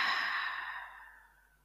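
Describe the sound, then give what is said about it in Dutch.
A deep breath is let out through the mouth during a guided breathing exercise. The single soft, airy exhale gradually fades to silence. “Adem even diep in door je neus en uit door je mond.”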